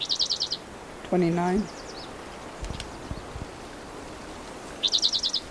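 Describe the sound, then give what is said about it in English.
A bird calls with two short, high, rapid trills of clipped notes, one at the start and one at the end, faint over a steady hissy background. “I can't see the bird, so I don't know where he is.”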